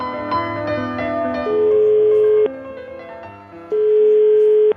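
Telephone tone after a call is hung up: a steady electronic tone sounds twice, each lasting about a second, amid other pitched tonal sounds.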